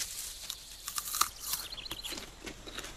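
Faint, crisp crunching as ripe red sour jujubes, picked wild from thorny bushes, are bitten and chewed in a few quick, soft crunches.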